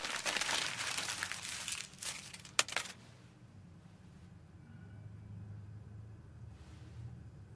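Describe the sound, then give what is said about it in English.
A paper letter is crumpled up by hand, a few seconds of dense crinkling rustles with a sharp crackle near the end, then near quiet with only a faint low rumble. “Her excitement fades, and she screws up the letter.”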